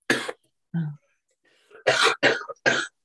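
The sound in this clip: Coughing from a person finishing up a cold: several harsh, throaty bursts with short pauses between them, including a lower throat-clearing sound, ending in a quick run of three coughs.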